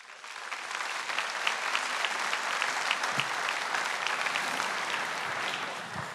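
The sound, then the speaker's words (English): Audience applause welcoming a speaker: many hands clapping in a dense, even roar that holds steady for several seconds before easing slightly at the end. “But let's give Tommy a warm welcome.”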